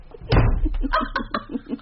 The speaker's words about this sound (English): Let me open the door for you.